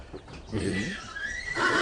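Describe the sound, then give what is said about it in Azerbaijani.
An Iranian horse neighing: one drawn-out, quavering whinny, fairly faint, with a wavering pitch that runs to the end. “Bu İran atıdır.”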